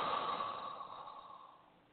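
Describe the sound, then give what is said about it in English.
A single deep breath during a guided breathing exercise: one long, airy exhale that starts strong and slowly fades away toward the end, heard alone without talk. “Let's breathe. Inhale, exhale.”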